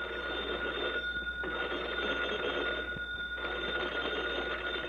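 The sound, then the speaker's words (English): Telephone bell ringing in a firehouse, a continuous shrill metallic jangle with steady high tones, repeating in a few long rings with brief dips between them, no voices. “the phone bell rang.”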